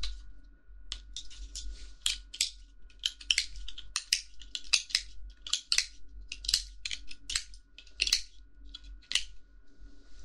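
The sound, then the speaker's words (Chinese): Scissors snip repeatedly while trimming a small toy rabbit. Many crisp, sharp cuts come in an irregular rhythm, some in quick pairs, with no talk over them. “拿剪刀”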